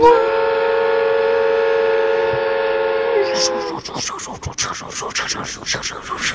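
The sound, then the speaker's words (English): A human voice imitates a passing train: a sustained, whistle-like hooting tone holds steady for about three seconds, then gives way to breathy, rhythmic chugging bursts that continue to the end. “I looked outside the window. I thought there was a train. That was really good.”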